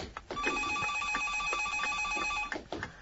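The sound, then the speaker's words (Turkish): A telephone bell rings in a house, giving one continuous rapid trilling ring of about two seconds, fairly quiet, with brief soft knocks before and after. “Komiser telefona bak.”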